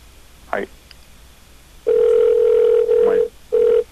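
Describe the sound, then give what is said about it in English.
A telephone dial tone plays while a call is dialing. The steady, even tone comes in three bursts: a long one, a shorter one right after, and a brief final one after a pause. “Is it dialing?”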